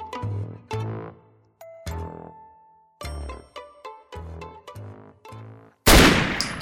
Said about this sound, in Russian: Одиночный выстрел АК-103 действительно пробил аккуратную дыру, одновременно выбив труху полузгнившего деревянного черена.